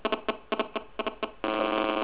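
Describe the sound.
A mobile phone ringtone goes off in a room during a talk on building materials: a run of short, bright beeping pulses in uneven clusters, then a sustained, steady ringing tone to the end.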